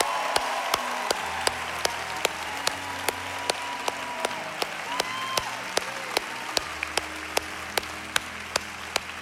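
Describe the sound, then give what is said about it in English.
An audience applauds at an Easter church service. Dense, steady crowd applause is marked by a regular rhythmic clap beat, with sustained musical tones underneath. “Come on, let's give it up for our risen Savior, Jesus, huh?”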